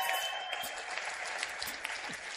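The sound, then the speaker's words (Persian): An audience applauds a guest, soft, even clapping that continues throughout without a break. “به افتخار دکتر هولاکوی نازنین دست خیلی قشنگ بزنید”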